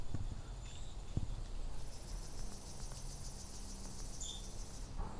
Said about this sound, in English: Warm enough to still have some insects going.